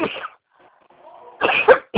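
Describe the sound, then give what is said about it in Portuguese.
A person coughs a few times in short, harsh bursts: one at the start, then a louder double cough later and a final brief one. Faint sound lies between the coughs. “Perdão que eu tô com uma tosse hoje.”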